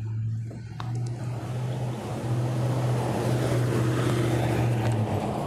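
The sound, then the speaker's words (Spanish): Water gushing from a leak onto General Núñez street in central Colima, a steady hissing rush that grows slightly louder after two seconds, with a low hum beneath. “ahí ya han pasado ya por lo menos este, cuatro días también que se ha estado tirando el vital líquido aquí en esta calle General Núñez, este, aquí en pleno centro de la ciudad de, Colima.”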